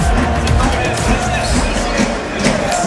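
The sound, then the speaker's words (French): Crowd noise from Brive rugby supporters in the stands at Agen, with steady drumming beating through a dense, loud hubbub. “fidèle aussi, vous les entendez sur le côté avec les tambours, les supporters de Brive qui ont fait le déplacement ici à Agen.”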